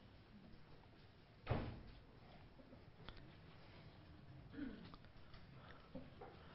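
A door or window is shut at a church gathering, one faint dull thud with a short decay, followed by soft low background noise and a few light bumps.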